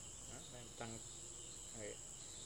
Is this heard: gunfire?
no